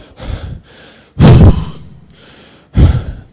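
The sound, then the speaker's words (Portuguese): A voice imitates a puff of breath with breathy, sigh-like exhales: softer airy puffs alternate with two sharper, louder bursts of breath, and there are no words. “Ravel é um sopro assim, ó.”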